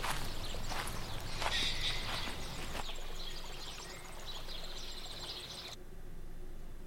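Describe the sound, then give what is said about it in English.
Video game footsteps walk forward in a steady run of soft steps over a continuous outdoor ambience, with a few bird calls chirping above. “You continue walking forward.”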